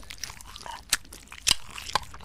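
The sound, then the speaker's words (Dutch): A person eats a stinking meat mush, making faint, irregular wet chewing and smacking noises with a few sharp, crunchy clicks standing out. “soort meurende vleespap naar binnen aan het werken”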